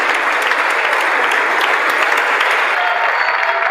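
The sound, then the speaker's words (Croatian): Applause and ovation in the US Congress for a speech by Volodymyr Zelensky: a dense, loud, unbroken roar of many hands clapping together at a steady level throughout. “čelnik zemlje Volodimir Zelenski održao je moćan govor u američkom kongresu te uz pljesak i ovacije razvio zastavu iz razorenog grada Bahmuta.”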